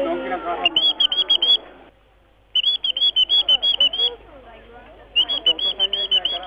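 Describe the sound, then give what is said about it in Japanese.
High, rapid chirping notes imitate a Japanese bush warbler's call on a small whistle that can also play a musical scale. Three bursts of quick, repeated bright notes are separated by short pauses over a low background. “例えばウグイスですと、まあ、あとはシジュウカラなんかですと、”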